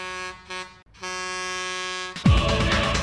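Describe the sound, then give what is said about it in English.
An air horn from a gadget's disco function blares in two long, brassy blasts, the second longer, and then gives way to a loud burst of noisy sound. “An air horn sounded,”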